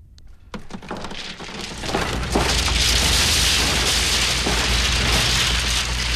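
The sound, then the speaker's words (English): Clatter of many small wooden sticks, like toothpicks, falling to a floor after a sword splits one of them. A dense, hissing rattle swells after the first couple of seconds and stays loud and continuous, with a low rumble beneath. “He thrusts his sword into the whirling cascade, splitting the white stick lengthwise. The remaining sticks fall to the floor.”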